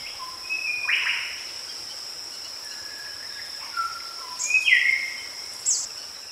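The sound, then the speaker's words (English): Rainforest ambience: a steady high insect drone runs throughout, with faint birds adding a few short whistles and chirps. “So, do you think that was in the rainforest or at a birthday party? If you said the rainforest, you're right.”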